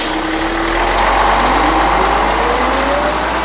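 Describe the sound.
Engine of a car called the Black Mobile driving off: a loud, steady low hum continues throughout, with a faint whine slowly rising in pitch.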